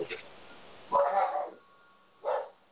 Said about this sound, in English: A dog is barking.